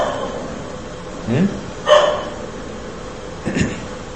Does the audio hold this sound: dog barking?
yes